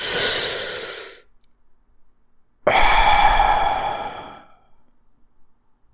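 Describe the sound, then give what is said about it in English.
A deep breath, drawn as two long breathy exhales with a quiet gap between them; the second is fuller and louder, with no talk around it. “join me, and just take a deep breath. We'll do it on the count of three, right? One, two, three.”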